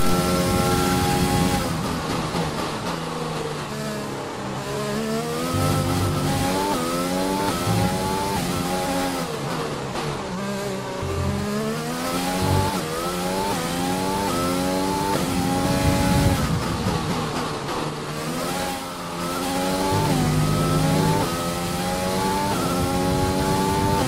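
Race car engine revving hard through a fast lap, its pitch repeatedly climbing and then dropping back as gears change, loud and sustained for the whole stretch with brief dips between pulls, and no voices.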